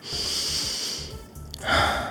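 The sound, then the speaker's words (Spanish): A deep, calming breath taken in a stressful moment: a long, airy rush of breath, a brief dip, then a louder, rougher gust of air toward the end, with no words spoken. “Y luego respiro.”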